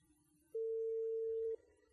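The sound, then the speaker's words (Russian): A telephone ringback tone plays while an outgoing call waits to be answered. It is one steady, mid-pitched tone lasting about a second, with quiet line noise before and after it. “Итак, звоним. Что у нас? Что у нас? Вызов идет, да? Угу. Вызов идет.”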